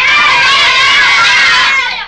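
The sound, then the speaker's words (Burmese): Many people scream together in a loud, dense wall of high, shrill voices that holds for about two seconds, then fades at the end. “အော်သံတွေကြားတယ်”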